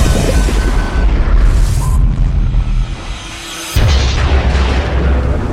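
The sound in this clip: Torpedoes fired at an enemy submarine explode in a loud, deep, rumbling roar that holds, dips briefly, then surges again in a second booming burst.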